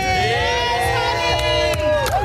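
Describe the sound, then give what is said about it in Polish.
Journalists cheering in a press centre at an international song contest after results are announced: overlapping shouted voices and whoops from an excited crowd, loud and lively throughout, with a few sharp bursts rising above the mix. “została przywitana przez dziennikarzy gromkimi oklaskami”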